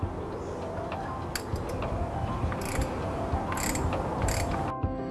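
A ratchet wrench clicks as it tightens an oil filter on a car engine. A few short bursts of ratcheting stand out against a steady, noisy background, with no talk.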